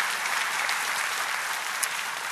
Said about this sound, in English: Now, demons can, you can applaud for that if you want. Go ahead.